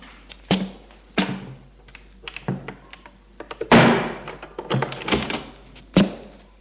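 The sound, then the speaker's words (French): An apartment door is shut with dull wooden thunks: many knocks and bumps of varying loudness, with one heavier, longer thud in the middle of the sequence. “le fait entrer et ferme la porte”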